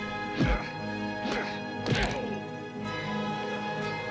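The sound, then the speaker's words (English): Kicks landing on someone in a fight: a few heavy, sharp thwacking impacts with punchy low thuds, heard over a steady tonal background without talking. “Oh, nice kick. His ancestors felt that one.”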